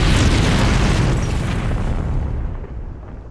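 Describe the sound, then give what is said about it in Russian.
A grenade thrown through a window explodes in a war film with a loud, deep boom. The blast rumbles on and slowly fades away. “Немец бросает в окно гранату.”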